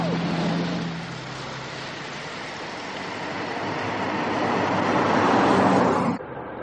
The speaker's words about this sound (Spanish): Toman la carretera principal y se cruzan con un camión regadera que las moja.